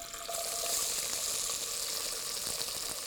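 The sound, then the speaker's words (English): Onions sizzling in hot oil, a bright, steady hiss that swells up just after the start and then holds evenly and fairly quietly throughout. “All right, so now our oil is nice and warm, hot, if you will. We're going to add our onions.”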